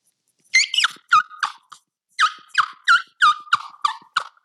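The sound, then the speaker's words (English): A wild turkey wing bone call, a suction hunting call made from turkey wing bones, gives short, high, raspy yelps. They come in two runs separated by a brief pause, with faint silence around each note. “I have a wing bone call. What is that? It's made from the wing bones of a wild turkey.”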